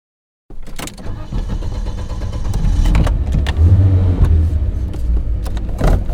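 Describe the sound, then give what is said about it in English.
A black Porsche SUV engine starts with a sudden burst, then settles into a loud, steady rumbling run that builds slightly in strength, with no talk over it. “Cece and I jump into her black Porsche SUV”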